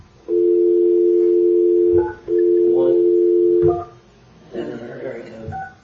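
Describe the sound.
Telephone tones while dialing a phone number: two long, steady, loud tones separated by a short gap, then a few seconds of brief talk.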